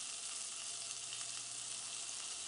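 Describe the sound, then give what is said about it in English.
Food sizzles and chars on a hot grill, a steady, dense hiss that holds at an even loudness throughout without a break. “And they're going to go right on the grill. And I'm just going to kind of leave them sitting here, getting all nice and grilled and charred and being happy.”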